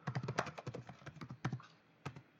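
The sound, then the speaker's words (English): Typing on a computer keyboard: a rapid, uneven run of many faint keystroke clicks, then a short pause before a final cluster of taps. “I'm typing the information into your text chat”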